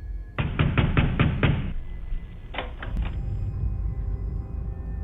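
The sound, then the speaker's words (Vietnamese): Wooden door rattling in a thunderstorm: a fast burst of about six hard knocking rattles, then a shorter burst of a few more, over a steady low rumble. “Cánh cửa gỗ cứ rung lên từng hồi, bần bật.”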